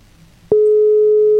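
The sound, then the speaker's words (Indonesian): A telephone line tone sounds while a call is being connected: a single loud, steady pure tone that starts abruptly after a moment of faint hum and holds without a break. “Nah, ini aku coba terhubung sama beliau.”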